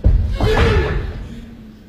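A door is pushed open cautiously, giving a heavy thud at the start followed by a rumbling resonance that fades away.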